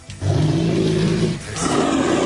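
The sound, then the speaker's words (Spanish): A bear's roar, loud, rough and sustained, easing briefly partway through before surging again to the end. “Siente el rugido.”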